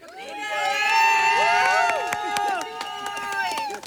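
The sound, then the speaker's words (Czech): A live radio audience cheers and whoops, many voices shouting together with pitches sliding up and down. The cheering stays loud and lively throughout. “Máme tady už docela hezkou audienci, jak by se dalo říct, přestože není hezky, tak nám je tady hezky, ne?”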